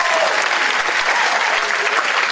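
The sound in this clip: A crowd applauding a man on stage, a thick, even roar of many hands clapping together, loud and unbroken across the short burst.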